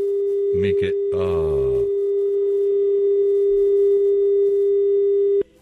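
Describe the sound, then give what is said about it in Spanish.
A steady, unbroken telephone tone sounds after a dropped call, with a brief voice over its start, and stops abruptly just before the end. “Se cortó su llamada, mi querido hermano. Trate de volverse a comunicar con nosotros”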